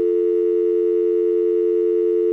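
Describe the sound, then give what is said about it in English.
A continuous telephone dial tone comes from a push-button phone that fails to dial. It is a steady, unbroken mid-low hum lasting throughout. “It's not going to let me dial.”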